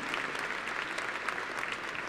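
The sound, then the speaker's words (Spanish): Applause from a church audience honouring hard-working priests, a steady rain of many hands clapping at moderate, even loudness throughout. “Vamos a darles un aplauso, son bien trabajadores, bien trabajadores.”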